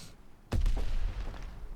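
A single sniper rifle shot in a video game: a sudden loud blast after a near-silent start, followed by a long rumbling tail that slowly fades.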